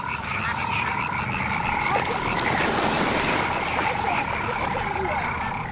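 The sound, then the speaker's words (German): A dense, continuous chorus of frogs croaking near a duck, a loud rasping mass of overlapping calls that holds steady throughout. “Siehst du das? Die Frösche gehen da irgendwie auf die Ente los.”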